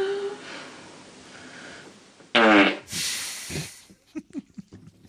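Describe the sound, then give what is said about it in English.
A little fart from a sleeping girl: a short, breathy burst of noisy sound, followed by a few faint, brief puffs. “followed by a little fart”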